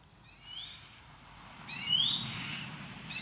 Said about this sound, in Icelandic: Þessi fugl var það á mínu vegi í morgun. Ég veit ekki hver syngur svona, ég sá hann ekki.